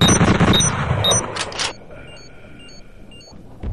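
Semi-automatic bolt gun firing in a video game: a loud burst of rapid, sharp shots fills the opening, then cuts out, leaving a quieter hum with small repeating electronic beeps.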